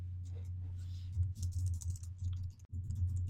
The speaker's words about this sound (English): So I'm going to use switch tab tab. And then I'm going to type in my value, enter, enter.